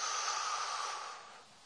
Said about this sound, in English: Just to take a deep breath